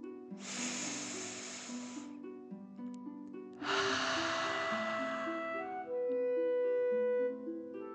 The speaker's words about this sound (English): Last one, fill up your chest and belly. Deep breath in and out.